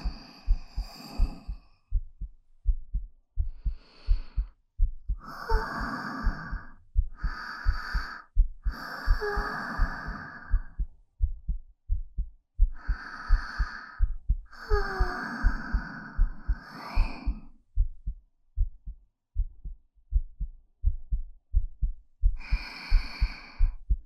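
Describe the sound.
A steady heartbeat throbs in low, soft, regular thuds all the way through. Several breathy sighs and gasps rise over the pulse in bursts and then fade, leaving the beat alone in the gaps.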